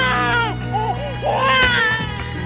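A feverish baby crying in a few loud, wavering wails whose pitch bends up and down between short breaks, heard alone without speech.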